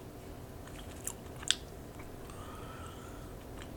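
Chewing and biting into food, a few faint crunchy bites with two sharper crackles standing out over soft, steady background noise, with no talk.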